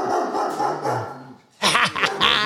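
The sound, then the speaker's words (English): Dogs bark and yip in a sharp, loud burst of barks in the second half, after a quieter, rougher stretch of sound. “That's the dogs.”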